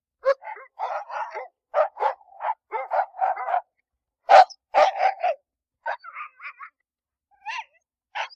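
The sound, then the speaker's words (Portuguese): Dog barking sound effect: many short, sharp barks in irregular clusters separated by brief pauses, some higher and yelpier than others, with no talk. “isso é pura sonoplastia. Eu quis criar um clima para a nossa conversa de hoje, que será sobre cachorros.”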